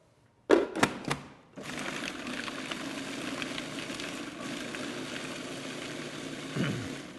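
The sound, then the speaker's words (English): Roasted garlic, roasted walnuts and a pinch of salt being ground for classic basil pesto: a few sharp, short bursts give way to a steady, droning mechanical whir that runs to the end. “And this is the first step for classic pesto. Grind up all the ingredients, and then I'll add my olive oil.”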